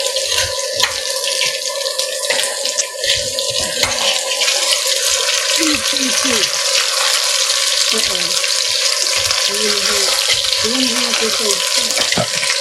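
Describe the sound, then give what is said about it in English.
Hash browns sizzle and crackle in a pan as they fry, with a dense steady hiss and the occasional scrape of a quick stir, while a person talks over the cooking. “check on the hash browns again, which are starting to smell good. And I'm just going to do a quick stir.”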